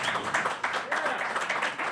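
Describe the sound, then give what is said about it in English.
Audience applause for a musician at a live show: a continuous, fairly soft clatter of many hands clapping, with voices mixed in. “Round of applause for Kevin Flynn, everybody.”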